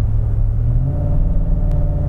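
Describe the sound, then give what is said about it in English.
A car engine after two downshifts hums steadily at about 3,000 RPM while climbing a rise, a loud, even low drone with steady mid-pitched harmonics and one faint click near the end. “One downshift, two downshifts. There's 3,000 RPM, just kind of holding 3,100.”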